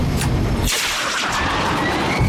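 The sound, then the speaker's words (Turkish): A bomb dropped from an aircraft explodes in a loud, dense roar of noise that fills the whole clip, with the low rumble briefly thinning midway before swelling again. “Hedef göründü. Lazerim nerede Bob? Odaksız. Oturmadı. Üzgünüm, kilitleyemedim. Vakit yok. Bombayı bırakıyorum.”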